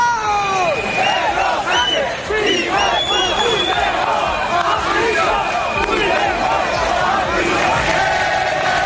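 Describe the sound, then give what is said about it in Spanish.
Crowd booing and shouting at a military parade in Madrid on 12 October: a loud, dense, continuous roar of many overlapping voices yelling throughout. “los abucheos a Pedro Sánchez y los gritos contra Puigdemont”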